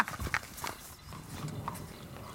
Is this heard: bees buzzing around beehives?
no